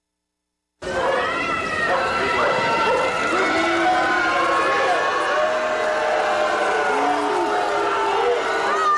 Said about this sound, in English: And as he left, this is the sound of the crowds responding to seeing this man for the first time.